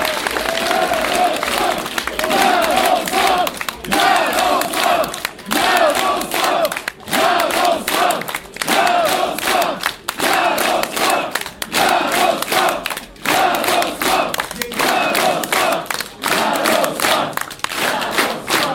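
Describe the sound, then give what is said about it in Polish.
A crowd at the PiS party election headquarters cheers, a loud sustained roar of shouting and applause that pulses in waves without letting up. “Posłuchajmy tej pierwszej reakcji w sztabie wyborczym PiSu.”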